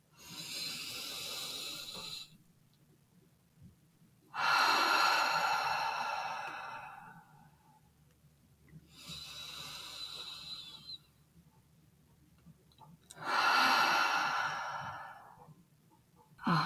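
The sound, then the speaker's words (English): Deep breaths drawn in through the nose and let out, several long, airy rushes of breath of similar length, with quiet pauses between them. “Okay, let's do three deep breaths. Okay, ready? Inhale through your nose. Hold it. And then exhale. Let's do two more like that.”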